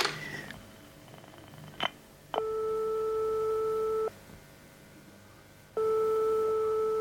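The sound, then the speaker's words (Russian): A telephone call tone on the line: two long, steady electronic beeps of equal pitch separated by a pause of similar length, preceded by a sharp click. The tones are clear and alone, with no voices. “Позвонить Люсе, да? Да, угадала, хочу услышать ее голос.”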